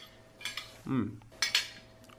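Spoon and plate clinking as food is served and tasted, a few light metallic chinks with a brief duller scrape of utensils between them, fairly faint.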